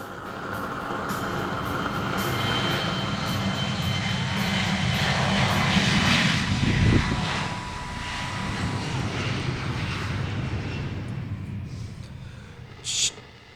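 An airplane engine opened up to full throttle gives a loud, sustained roar that holds steady for the whole stretch, a dense drone with a brief sharper burst near the end.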